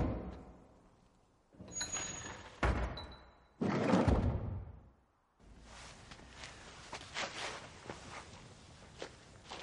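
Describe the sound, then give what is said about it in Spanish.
Wooden temple doors being closed: a few loud, heavy thuds and knocks, followed by a steady, rough rustling noise, with no talk. “Cierra las puertas de madera.”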